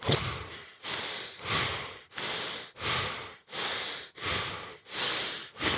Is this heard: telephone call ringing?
no